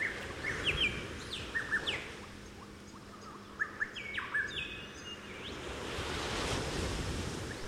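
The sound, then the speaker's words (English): Beach and jungle ambience: waves roll and wash steadily while birds chirp in short, high, repeated calls, with the surf swelling louder toward the end. “I will leave you now as you enjoy the sounds of the beach and the jungle, as you remain centered in your heart space.”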